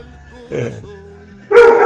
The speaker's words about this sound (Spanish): Los perros adentro y no dejan hablar.